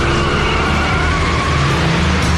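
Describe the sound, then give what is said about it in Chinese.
A car engine roars under hard acceleration as the vehicle speeds out of an alley, a loud continuous rushing drone with a steady engine tone running throughout. “另一名坐在驾驶位置上的防暴警员突然猛踩油门冲出小巷。”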